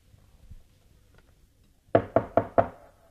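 Knocking on a door at night: four sharp, evenly spaced raps in quick succession, sounding after a near-silent pause. The knocks are firm and clear and stand alone, with no voices.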